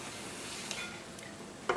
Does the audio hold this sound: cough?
no